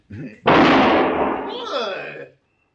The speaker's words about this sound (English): He's good with a gun. Very good, senor. You just shot the gun from my hand.